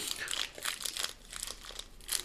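A plastic wrapper on halva with roasted peanuts crinkles as someone struggles to open it: rapid, bright crackling in a run of irregular bursts, fairly quiet, with no talk.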